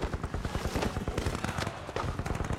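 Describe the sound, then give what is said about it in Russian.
Gunfire in a dramatized battle at the Brest Fortress: a rapid, continuous rattle of many shots in an unbroken crackling burst. “Вайнштейн стреляет, и майор падает назад в комнату.”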